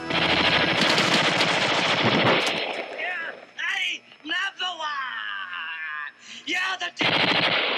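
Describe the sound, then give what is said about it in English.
Automatic weapon fire from a John Carpenter film scene in which a character sprays a whole wall with bullets. Loud, dense bursts of rapid gunfire open the scene and return at the end, with voices shouting in between. “Yeah, when he sprayed the whole wall with automatic weapons. Yeah, that's funny. Very true. Pleasance gunning down the Duke. Dude, he goes crazy.”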